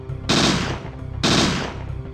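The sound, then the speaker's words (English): Gunshots fired at a creature in the video game Parasite Eve 2: two loud, sharp blasts about a second apart. Each leaves a rough, decaying tail. “Right away, we put a couple shots into the creature.”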